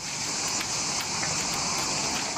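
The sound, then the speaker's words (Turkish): Cornelian cherries being poured into water for traditional sherbet-making in Kozan, Adana, give a dense, steady rushing gush with bright hissing splashes throughout, loud and continuous with no voices. “Suya döküyoruz. Suya dökünce yapraklar ve içindeki kirazın dışındakiler yüzüne çıkıyor.”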